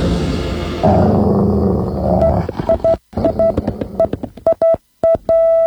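A dog growl sound effect on a morning radio show: a rough, low, rumbling snarl that lasts about two seconds, followed by many short, high beeps separated by brief silent gaps.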